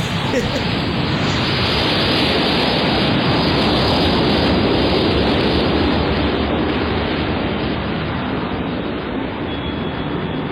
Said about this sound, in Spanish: Despegamos sin incidencia alguna y tuve distraído a Pablo lo suficiente como para que no notase el momento del ascenso.